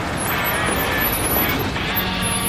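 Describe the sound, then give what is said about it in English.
A pickup truck pulls up at the side of a sunny forest road, giving a loud, steady low rumble of engine and road noise that stays even throughout. “pulls up in his pickup truck at the side of a sunny forest road.”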